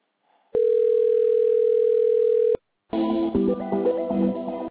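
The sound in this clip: A telephone ringing tone plays while a call to a housing service line is transferred to an advisor: one steady, unbroken mid-pitched tone lasting about two seconds. After a short gap, a busier, melodic tonal passage follows.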